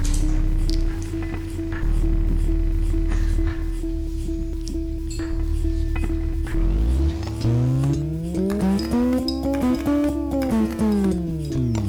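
Car tires screech over a steady engine drone: a low hum holds at first, then a long, loud squeal glides upward and sweeps back down, layered with rough grinding noise.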